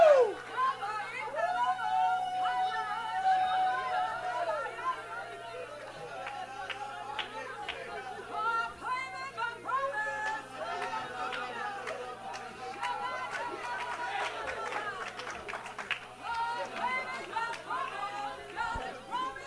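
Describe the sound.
A church audience shouts and cheers in a continuous babble of excited voices, with some raised, sustained cries standing out above the steady crowd noise throughout.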